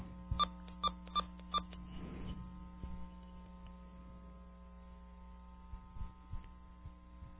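Four short dual-tone beeps from a recorded telephone line message, quick evenly spaced pips at the start, followed by a steady low electrical hum and a few faint clicks on the quiet line.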